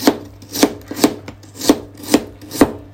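Knife chopping lotus root while cooking a lotus root salad: six crisp, evenly paced strikes with a short gap midway, each a sharp clack with a brief ring, no talk.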